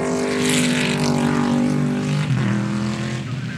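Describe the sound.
A Marcos racing car's engine roars at the Goodwood Members' Meeting 2023 near the Lavant Straight. The drone is loud, steady and strongly harmonic, and dips briefly in pitch partway through.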